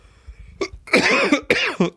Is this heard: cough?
yes